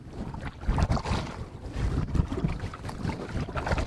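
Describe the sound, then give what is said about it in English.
Paddling a kayak on open water, with a repeated swish and splash of paddle strokes over a constant wash of wind buffeting the microphone. “A few years ago, he set out to systematically survey New York City's shoreline from his kayak, but he's also pleased to paddle around more remote areas like this one, too.”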